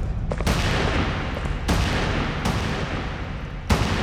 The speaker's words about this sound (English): The shotgun soon punched a series of irregular holes in the metal plating, causing the steel to splinter like rotten wood.